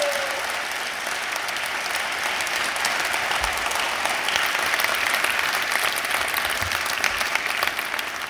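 Audience applause welcoming new staff, a steady wash of many hands clapping that holds at an even level from start to finish.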